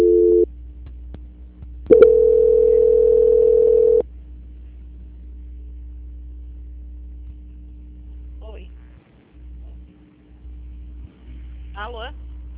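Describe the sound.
A telephone call transfer hold tone sounds: a short steady beep, then a longer steady tone of about two seconds over a constant low line hum. Faint fragments of voice follow.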